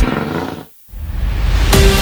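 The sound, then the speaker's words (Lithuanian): Rallycross race cars roaring at a championship event: a loud, harsh engine roar that cuts out abruptly into a short silence, then returns just as loud. “Čia orą drebins Latvijos, Lietuvos ir Baltijos šalių ralio kroso čempionato monstrai.”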